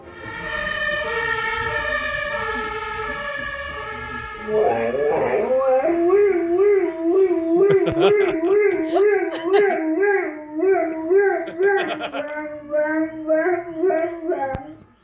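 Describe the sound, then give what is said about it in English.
A dog howls in imitation of a police car siren. It begins with a sustained, steady tone, then shifts to loud, wavering howls that rise and fall in pitch like a siren for several seconds. “This has been a dog doing a really good impersonation of a police car.”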